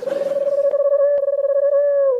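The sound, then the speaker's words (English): A pigeon coos in one sustained, low, fluttering call of about two seconds, with a rapid purring pulse and steady pitch. “It's a pigeon.”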